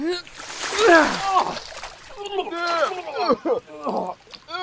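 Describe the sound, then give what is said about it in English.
Liquid splashes down as a chamber pot of urine is emptied over people. A brief wet splatter comes early, and loud, startled shouting voices largely drown it out. “why are you emptying a piss pot on our heads?”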